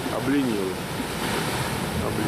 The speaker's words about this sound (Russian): Мы подошли, друзья, поближе к тому месту, где волны встречаются с серферами.